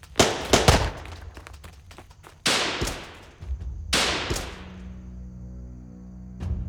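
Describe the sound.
Gunfire in a Western-style shootout, several sharp loud shots, some in quick clusters at the start and others spaced apart, each leaving a ringing decaying tail before the sound trails off.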